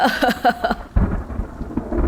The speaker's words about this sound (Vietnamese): Tiếng mưa, tiếng sấm, tiếng sét hòa quyện với tiếng nói, tiếng cười kia tạo thành một thứ âm thanh hỗn tạp mang rợ.